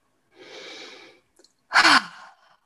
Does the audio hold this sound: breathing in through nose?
yes

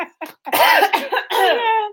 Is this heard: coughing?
yes

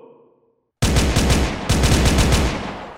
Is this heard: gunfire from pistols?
yes

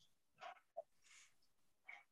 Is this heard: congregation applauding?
no

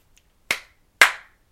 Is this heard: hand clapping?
yes

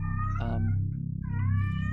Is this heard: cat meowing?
yes

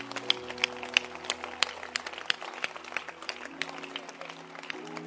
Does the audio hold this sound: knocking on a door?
no

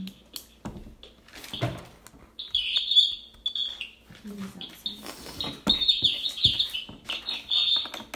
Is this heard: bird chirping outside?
yes

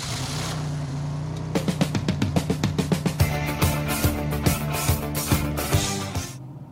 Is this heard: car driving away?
yes

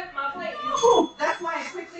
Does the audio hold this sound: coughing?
no

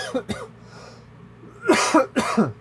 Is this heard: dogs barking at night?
no

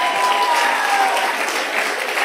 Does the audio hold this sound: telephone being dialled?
no

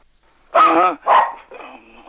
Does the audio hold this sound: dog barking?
yes

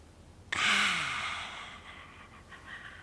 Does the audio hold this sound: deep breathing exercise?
yes

